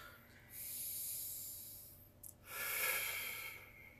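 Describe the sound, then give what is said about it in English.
Two long, airy breaths, a deep drawn breath, make a steady hiss, broken by a short gap with a faint click between them. The breathing is soft and unhurried, with no talk over it. “Just gonna take a deep breath into that one”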